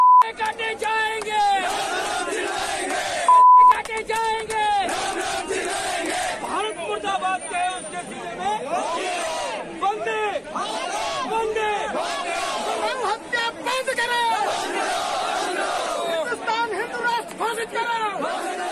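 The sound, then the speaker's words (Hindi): Crowd chanting slogans at a protest at Jantar Mantar: many voices shout together in a loud, dense, continuous mass that carries on throughout. “पहले आप सुनिए कि वहां पे क्या नारे लगे और वो किस तरीके के नारे हैं, आप सुन लीजिए.”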